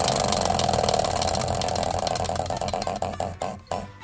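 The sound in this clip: A prize wheel spun during a show's word game rattles with rapid ticking clicks that gradually slow and spread apart toward the end as the wheel winds down.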